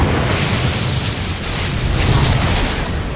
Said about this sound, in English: when the floor below erupted in a strident blast.